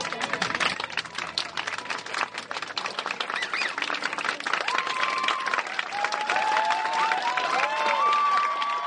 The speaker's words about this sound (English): Well, it's the sound of a fad that in one form or another has sounded off in cities across the globe. Flash mobs,